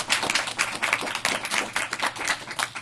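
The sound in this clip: An audience claps to welcome a speaker, dense steady applause with overlapping hand claps that rises and dips slightly without stopping.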